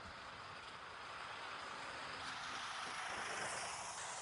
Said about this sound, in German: Achso, seht ihr, Lieferwagen fährt gerade auf dem Hof hier.